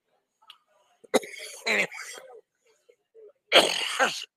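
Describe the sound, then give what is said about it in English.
A stupid, nagging cough from a woman: a couple of harsh, noisy bursts with a brief gap between them, the second longer and louder, with some breathy voicing around them. “Excuse me. I was about to get rid of this stupid cough.”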